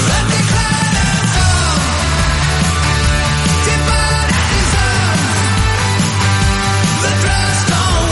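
Loud, dense rock song playing continuously, with driving drums and guitars filling the whole stretch at a steady, high level.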